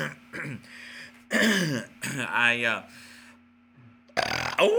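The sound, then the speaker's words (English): A burp on Thanksgiving, several throaty, gurgling vocal bursts separated by pauses, over a faint steady hum. “you gotta have a burp on Thanksgiving.”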